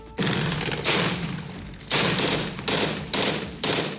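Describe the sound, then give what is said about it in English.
Gunfire as U.S.-backed Syrian Democratic Forces close in on the last Islamic State-held territory in Syria: several loud, rattling bursts of automatic fire, separated by short gaps. “That's the sound of U.S.-backed Syrian Democratic Forces closing in on the last small piece of territory held by Islamic State militants in Syria.”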